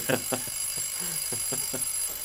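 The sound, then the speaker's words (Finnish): A telephone rings in short, bell-like bursts of rapid pulses, repeating at a steady pace at moderate volume over a faint background hiss. “Minun täytyy vastata puhelimeen.”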